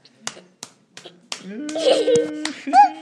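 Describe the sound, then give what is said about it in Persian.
Hand clapping: a few sharp, separate claps ring out in a loose rhythm, then a voice begins singing or speaking over further claps. “بلی کلا دست بزن به افتخار خوده.”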